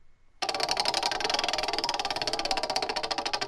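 A prize wheel spins, its pointer clattering through a rapid, steady run of many loud clicks that start abruptly after a faint lead-in and keep an even rhythm to the end.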